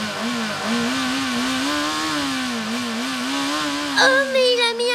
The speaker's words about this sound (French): Son moteur.